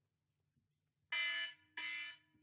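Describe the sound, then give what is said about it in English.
Electronic alarm set off as a five-minute timer: a short high chirp, then loud, harsh buzzing blasts repeating in even bursts with brief gaps between them. “We're going to do it for 5 minutes at a time when the alarm goes, which will sound something like this, and hopefully you can hear this at your end.”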